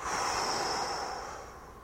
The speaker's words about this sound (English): And breathe out.